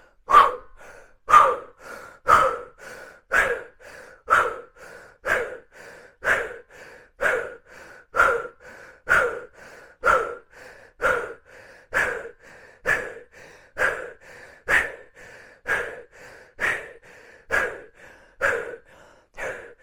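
Deep, rapid breaths in and out during a seated breathing exercise, forceful and evenly paced at about one per second in a long steady series, with no talk.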